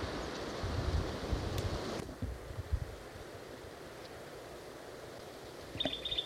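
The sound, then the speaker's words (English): Strong wind blows through a dry canyon wash among scrubby oak, juniper and chihuahua pine near the head of the canyon. A gusty roar fills the first seconds, then eases to a softer rush, with a brief high bird chirp near the end. “I'm in the bottom of a dry wash. That's the plain titmouse. Wind's blowing strong.”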